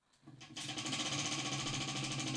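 A game prize wheel spins with a rapid, continuous rattle of clicks. After a quiet half-second start it settles into a steady, loud ticking that runs to the end.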